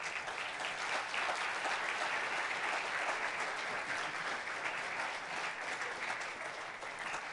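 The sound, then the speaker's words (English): Steady applause from a church audience during a morning service, welcoming a team onto the stage. Dense, even clapping holds throughout and thins slightly at the very end. “Why don't you guys come on out? Give them a big hand this morning as they come out.”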